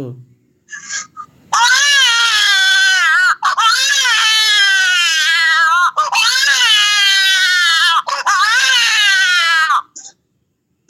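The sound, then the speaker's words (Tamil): A voice imitates a newborn baby crying: four long, loud, wavering wails with a strained, high, tearful tone, each separated by a short catch of breath. “முதலாவதாக, பிறந்த குழந்தை எப்படி கத்தும் அப்படி என்பதை இதோ உங்களுக்காக.”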